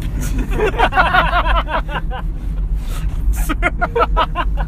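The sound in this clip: A car ride heard from inside, with a steady low engine and road rumble running beneath overlapping voices that chatter throughout.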